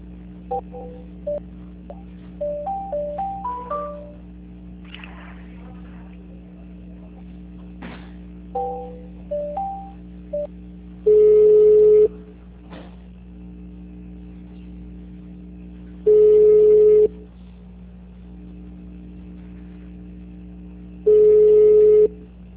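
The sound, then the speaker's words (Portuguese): A telephone call is transferred, with two bursts of quick dialing beeps followed by three long, steady tones spaced several seconds apart, all over a constant low electrical hum. “Deixa eu só tentar transferir a ligação.”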